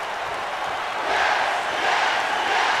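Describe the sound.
A wrestling crowd roars after a German suplex, a dense wash of voices that swells louder about midway and then holds steady.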